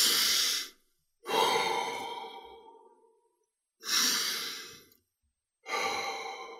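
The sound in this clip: Slow, deliberate, controlled breathing: four broad, airy breaths separated by short silences, one of them a long exhale that fades gradually, with no talk.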